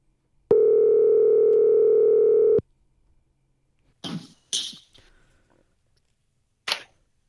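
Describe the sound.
Telephone dial tone heard while placing a call: a steady, unbroken tone held for about two seconds, then stopping, followed by a few short, sharp clicks after a pause.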